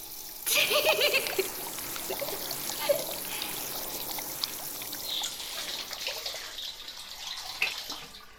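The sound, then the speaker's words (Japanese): Hot water poured over a person's head during hair washing: a splashing, trickling pour that starts abruptly and runs steadily for several seconds, with small surges in loudness. “よし、まず頭からいきます。お湯かけんぞ。”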